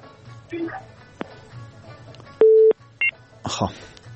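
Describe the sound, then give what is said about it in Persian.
Line tone after a phone-in caller is cut off: a brief steady electronic tone, followed by a shorter higher beep, with speech before and after. “تماس به هم قطع شو.”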